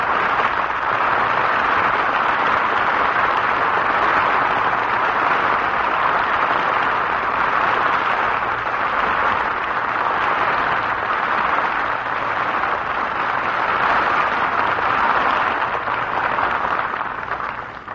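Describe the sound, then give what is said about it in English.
A concert audience gives pianist Paderewski a sustained ovation at a recital on his 20th United States tour, the applause a steady, unbroken roar of clapping that holds its level for the whole stretch and eases slightly at the end. “In response to his ovation, he sits again at the piano, and we will have another encore.”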